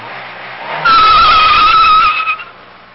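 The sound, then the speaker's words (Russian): A car brakes to a halt with a loud, sustained squeal lasting about a second, which then fades away into a low steady background hum. “Автомобиль остановился.”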